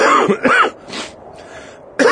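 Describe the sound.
A person coughs and clears their throat as dust catches it, with a few harsh, rasping bursts and breathy, softer exhalations between them.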